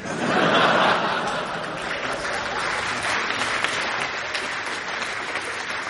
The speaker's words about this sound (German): Lassen Sie das bitte, das kostet alles Zeit. Außerdem wird jetzt eh nicht mehr geklatscht.